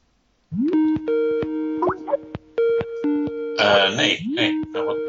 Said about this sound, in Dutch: Bel jij mij? Ik weet niet. Er gebeurt nu van allerlei magische Skype dingen op het moment dat ik over Wire begin.